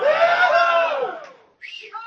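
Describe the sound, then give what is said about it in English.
An audience gives a rebel yell at a 2010 board meeting in Nashville, Tennessee. The high, loud whooping of many voices swells, then fades out, and a couple of brief voices follow. “And the audience is going to give you a big rebel yell right now.”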